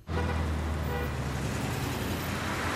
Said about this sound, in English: A car parks on a busy California street.